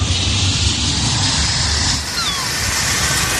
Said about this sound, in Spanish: Sonidos, por ejemplo, como estas turbulencias, sí, que todos hemos sufrido.